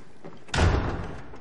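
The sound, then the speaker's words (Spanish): A door is pushed shut with a single dull thump that rises out of a quiet hush and fades quickly into a soft rumble. “cierra la puerta”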